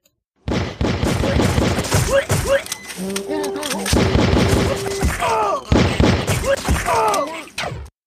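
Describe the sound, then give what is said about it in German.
A gunfire sound effect fires rapid, dense volleys of shots for several seconds while voices shout over the barrage. “Da wird geschossen und ich glaube auch geschlagen. Nee, eigentlich nicht. Der Schieß-Sound ist ein bisschen irreführend.”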